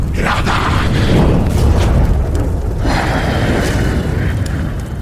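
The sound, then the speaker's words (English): Fire elemental in combat, a tabletop RPG sound effect: a loud, steady roaring rumble with whooshing, booming bursts, sustained throughout without a pause. “Even a fire elemental in combat.”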